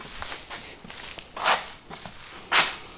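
Footsteps walking into the next room of an old building with a sagging ceiling and rusted metal mesh: a steady run of soft, shuffling steps with two louder scuffs standing out.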